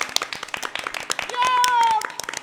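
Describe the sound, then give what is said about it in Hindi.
An audience claps to welcome performers onto a stage. The handclaps are sharp and steady, with a brief voice rising over them midway. “तो इनका तालियों के साथ स्वागत करें।”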